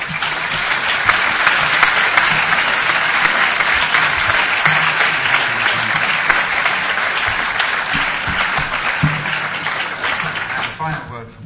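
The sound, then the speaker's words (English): Audience applause at the close of a panel discussion, a dense, steady wash of clapping from a large crowd that holds loud and even for about eleven seconds before tapering at the very end. “So can we give them a round of applause for their”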